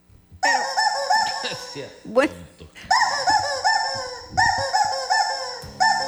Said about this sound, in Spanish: De todos los pollos que había en el mundo, Laura escogió así el... Aquí está amordazado. El que peor suena.